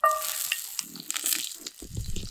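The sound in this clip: Butter sizzles in a hot pan as more pieces are added during cooking, a faint, steady high hiss with scattered small crackles and pops.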